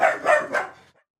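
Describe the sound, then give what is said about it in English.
A dog barks three times in quick succession, short and fairly loud, followed by a brief fading tail and then silence. “The dogs are barking.”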